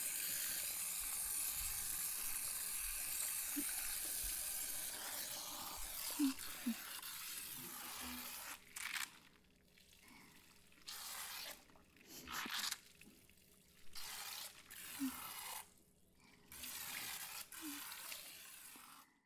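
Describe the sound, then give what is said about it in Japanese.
Water from a shower sprays over hair during a rinse, a soft continuous hiss at first that then breaks into several separate splashing bursts. “これくらいだね。じゃあ流していくね。”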